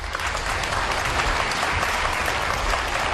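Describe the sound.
Audience applause fills the space as a dense, steady wash of clapping, loud and even throughout without pauses, with no clear voices over it.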